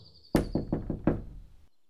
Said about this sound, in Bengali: এমন সময় দরজায় টোকা পড়ল